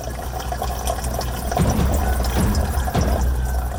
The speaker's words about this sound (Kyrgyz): Ал таң атар замат үйүнө аккан сууну тундуруу менен алек.